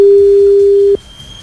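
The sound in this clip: A steady telephone line tone rings out while a call is being placed again, one unbroken mid-pitched beep held for about a second and then cut off abruptly, leaving only faint hiss behind.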